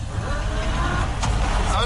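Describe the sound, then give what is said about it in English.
A car stuck in a river with its engine straining in reverse, a loud, steady low rumble that continues under voices. “I wonder if this will come out of the river now. Please let reverse gear work.”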